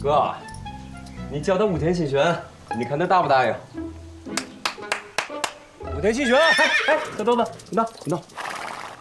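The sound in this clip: A horse whinnies over and over in long, wavering, shaky calls, loud and high, with a few sharp clicking knocks between bursts and a final run of whinnies near the end.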